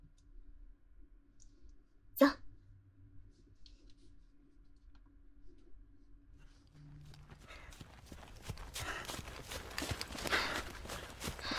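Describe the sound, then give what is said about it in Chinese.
Running footsteps as a jog begins: a faint start with one sharp click, then a quickening patter of many steps that grows louder through the second half. “好了，准备的差不多了，然后我们就开始跑步吧。”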